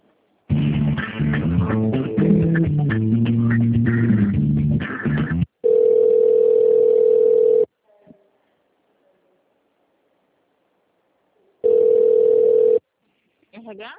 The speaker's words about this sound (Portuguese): Só um minutinho, então, que eu vou transferir a ligação.